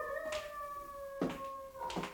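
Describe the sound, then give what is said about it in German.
A dog howling, one drawn-out wavering tone with overtones held steadily across the whole clip, faint overall, with a few brief noisy bursts at intervals. “Da hat nur ein Hund geheult.”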